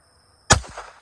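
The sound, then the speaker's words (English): A single gunshot fired at a target 100 yards away: one sharp, loud crack that stands alone after near silence, followed by a short decaying tail. “That'll be my third shot.”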